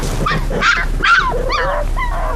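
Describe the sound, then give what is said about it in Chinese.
A dog barks and whimpers in a rapid run of short, high yelps and whining cries, fairly loud over a steady low background hum. “您的狗有点闹啊。”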